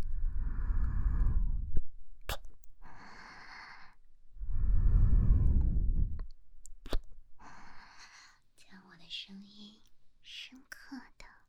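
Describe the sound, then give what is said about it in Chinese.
Two long, deep breaths, each a soft rushing exhale of a couple of seconds, separated by near silence and followed by faint whispery sounds and small clicks. “我的呼吸。”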